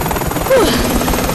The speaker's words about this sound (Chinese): 真是太棒了，螺旋桨的风会把你吹到岸上的。